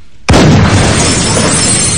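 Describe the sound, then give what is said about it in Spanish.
A single loud gunshot is fired at a huge poster covering a fake glass wall in a 2007 horror thriller film. One sharp, sudden blast is followed by a long, noisy tail that slowly fades. “Sobrecogida, mira hacia el enorme póster con su imagen que preside la estancia y dispara contra él.”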